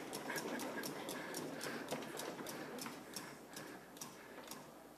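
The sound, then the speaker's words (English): A spinning prize wheel ticks through a long run of sharp clicks over a steady hiss, the ticks gradually spacing out as it slows. “C, spin the wheel of conflict. Right on. All right, go ahead. Give it a whirl”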